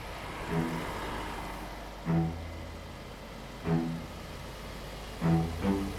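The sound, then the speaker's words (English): HGV lorry engines starting up in a lorry park beside a motorway before dawn: a constant low diesel rumble with a few short, repeated engine surges rising above it. “Even though it's still an hour till dawn, that's the sound of lorries waking. In the lorry park at Chippenham Pit Stop, HGV drivers are on the move.”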